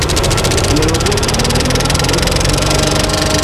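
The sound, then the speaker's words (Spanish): A film projector running after its lamp has been started, with fans going: a dense, continuous mechanical whirr with a rapid, even rattling pulse, loud and unbroken throughout. “Arrancamos la lámpara. Y ahora ya podemos proyectar. Arrancar. Está todo metido. La luz ya la tenemos. Marcha.”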